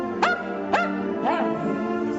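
A dog barks in a video of its own bar mitzvah celebration, giving three short yipping barks, the third longer and more whining.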